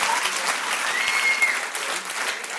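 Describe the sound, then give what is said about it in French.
Audience at a personal-development conference applauding, dense and steady clapping at even loudness across the whole stretch. “je voulais des applaudissements, mais j'en ai pas encore eu. Moi, donc... Faut demander.”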